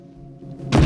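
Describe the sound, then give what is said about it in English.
A chair is knocked over, heard as a single sudden heavy thud near the end that follows a quiet low rumble. “A chair is suddenly knocked off its feet.”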